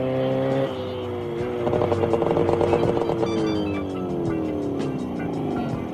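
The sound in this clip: A motorcycle engine drones steadily while being ridden, growing louder around the middle, then its pitch slides downward toward the end.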